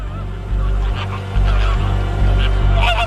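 Caribbean flamingos honking: a series of nasal, goose-like calls, some overlapping, over a steady low rumble at moderate loudness.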